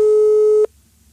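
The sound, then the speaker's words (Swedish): A steady telephone tone sounds while someone is being called. The single buzzy, even tone cuts off abruptly, leaving a faint low hum. “nu ringer vi upp Rickard Sjöberg och blåser honom. Fast han svarar bara.”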